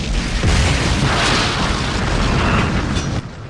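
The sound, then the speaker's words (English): A starship explodes, its saucer-shaped command section engulfed in a massive fireball and blown apart. A dense, roaring rumble rolls on steadily for about three seconds, then drops off slightly near the end. “The Enterprise is blown apart, and the burnt-out shell of the once great starship floats away from the Inferno, its saucer section half demolished.”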